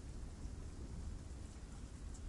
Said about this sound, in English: Dark clouds overhead drizzle constantly.